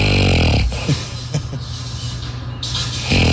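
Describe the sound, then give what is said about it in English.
A man snoring loudly: heavy, rasping snores fill the start and the end, with a rougher, quieter stretch in between. “my hubby snores so loud he has to sleep on the couch every night”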